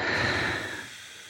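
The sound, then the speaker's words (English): A long, breathy exhale at the end of a breathing exercise, a steady hiss of air that slowly softens and fades, heard alone without talk. “I mean, probably we could have all gone a little bit longer but I'm sure that out breath felt really, really amazing.”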